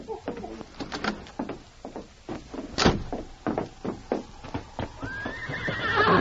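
A horse's hooves clop in a steady, uneven rhythm as it is ridden slowly along a stretch of beach, and a loud whinny rises near the end.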